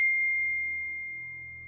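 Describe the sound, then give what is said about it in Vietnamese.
A phone chimes with a single ding for an incoming text message, a steady high tone that slowly fades away on its own with no talk. “Điện thoại của Tiên báo có tin nhắn”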